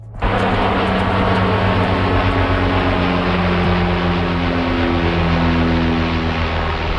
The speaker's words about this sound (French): Ce que vous venez d'entendre, c'est le vol d'un Canadair au-dessus des feux qui ravagent en ce moment la vallée de l'Okanagan en Colombie-Britannique.